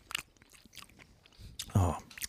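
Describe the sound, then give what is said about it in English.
Biting into bursting candy gives soft, quiet mouth noises that build to one louder, squishy crunch near the end. “We're going to do the candy ASMR if you want. We can whatever you want. Yeah, sure. Oh, they do burst. I'm going to pop it in. It's bursting.”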